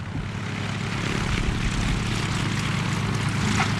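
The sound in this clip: A propeller-driven aerobatic plane takes off during an air race, its engine giving a loud, steady, buzzing drone that fills the whole clip with no break.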